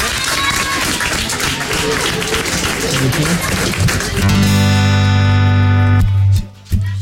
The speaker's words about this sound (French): C'est en live sur Virgin Radio. On l'applaudit bien fort. Bravo.